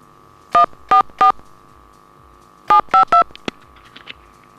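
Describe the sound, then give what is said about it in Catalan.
A phone number dialled on touch-tone keys: six crisp beeps in two groups of three, split by a short pause, followed by a couple of faint ticks. “I si el truquem per telèfon? Normal i corrent?”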